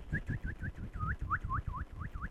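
A person whistles an imitation of a bird call, a rapid series of about a dozen short swooping notes, some dipping and rising, repeated in a steady rhythm over low breathy noise.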